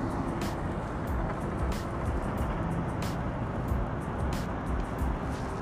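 Constant city street traffic with a heavy bus engine drone, a loud, unbroken rumble with no clear rise or fade as vehicles go by.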